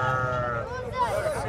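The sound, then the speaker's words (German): Sheep bleating at a traditional livestock market, where hundreds of animals stand in herds on dusty ground in Qamishli; wavering animal calls sound continuously alongside voices. “Wir besuchen einen traditionellen Viehmarkt in einem anderen Stadtteil von Qamischli. Auf dem staubigen Gelände stehen hunderte Schafe in kleineren und größeren Herden.”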